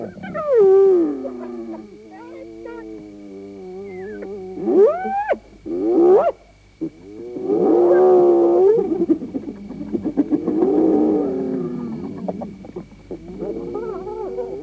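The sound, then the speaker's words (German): Hyenas cackling and whooping: a run of loud, drawn-out harmonic calls, some climbing sharply in pitch as whoops, alternating with squealing, chattering bursts and brief pauses, with no talk. “Kreischendes Gekicher. Beklemmendes Falsettgejuchze. Enttäuschungslaute.”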